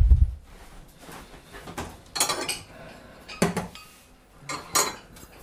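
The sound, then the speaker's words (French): Cutlery clinks and scrapes against a plate as a piece of food is cut, with a few sharp bursts separated by quieter moments. “Et on se coupe un morceau.”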